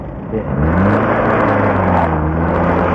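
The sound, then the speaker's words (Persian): A car engine rumbles as the vehicle pulls away, a loud, steady low drone that swells in the first half-second and then holds evenly. “اکبر سوار ماشین قفار شد و رفت.”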